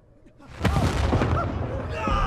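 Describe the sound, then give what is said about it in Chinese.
Explosions ring out in a city's main road and surrounding alleys: a deep boom bursts in sharply, then a loud, sustained rumble follows, with voices crying out through it. “主官道上，四周巷道里的爆炸声和惨叫声不绝于耳。”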